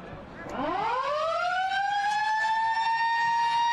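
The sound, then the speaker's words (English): A stadium siren ends the first quarter of a football match. It slides quickly upward in pitch, then holds a loud, steady, sustained wail to the end. “That's the siren to bring the first quarter to a conclusion.”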